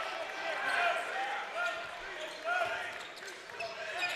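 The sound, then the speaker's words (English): A basketball is dribbled during a Maryland college game, its repeated bounces barely standing out beneath a continuous wash of crowd noise and talk. “Ayala trying to break down Greer on the dribble. Greer stays right with him.”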